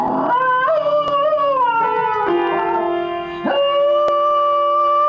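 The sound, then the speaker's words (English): A dog howls along to piano playing in a loud, wavering series of long, sliding notes, punctuated by a couple of sharp key strikes. “I unsurprisingly found it on YouTube when I put in dog playing piano into the search bar at the top, as I am wont to do.”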